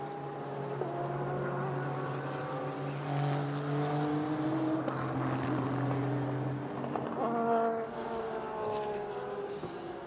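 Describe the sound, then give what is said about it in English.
Number 5 bright yellow JDC Porsche race car climbing the hill through turn 6 at Laguna Seca during practice: a loud, sustained engine drone with strong tonal harmonics whose pitch shifts as the car passes. “So we're seeing the number 5 bright yellow JDC Porsche out on the track, just climbing the hill through turn 6”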